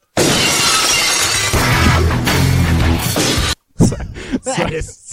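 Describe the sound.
A window-smash sound effect: a loud crash of breaking glass, then a sustained shatter of glass pieces lasting a few seconds. When it cuts off, people talk briefly.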